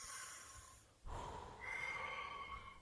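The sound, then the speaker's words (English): A man takes a deep breath, heard as faint, airy breathing with a sharper burst of air partway through and no talk. “Let me let me take a deep breath.”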